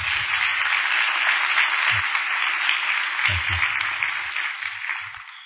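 Applause from an audience welcoming a preacher to the pulpit, a dense, steady wash of clapping that holds for several seconds and eases slightly toward the end.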